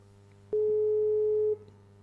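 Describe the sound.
A telephone busy tone sounds: a single steady, mid-pitched electronic beep lasting about one second, clear and alone over faint background hum.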